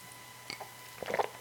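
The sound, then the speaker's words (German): Someone takes a small sip of a drink: faint wet mouth and swallowing noises, a few soft gulps and slurps, heard alone without speech. “Ich muss mal gerade ein Schlückchen trinken.”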